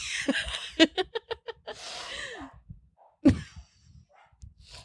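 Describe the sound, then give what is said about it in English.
Dogs barking in the background: a quick series of short, fairly faint barks, mixed with breathy noises and no clear talk. “Please ignore the dogs in the background.”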